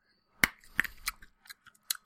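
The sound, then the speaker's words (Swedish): Quiet, irregular chewing produces a few sharp, crisp clicks and crackles scattered among softer mouth noises. “Jag tuggar på en.”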